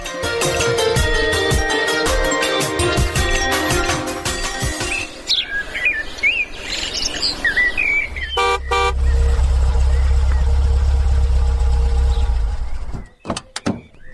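A car engine idles with a low, steady rumble through the later part, after a stretch of chirping birds and tonal, music-like sounds, with a short horn-like blast just before the rumble sets in.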